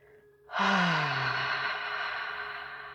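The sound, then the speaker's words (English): A deep breath taken during a guided breathing exercise. After a short near-quiet lead-in it becomes a loud, airy rush that holds steady for over two seconds and is still going at the end. “I invite you to welcome one deep breath into the body.”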